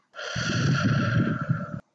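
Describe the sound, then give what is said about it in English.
One long, deep breath drawn in, a steady breathy rush lasting under two seconds, fairly loud and heard alone with no talk. “Go ahead and breathe it in.”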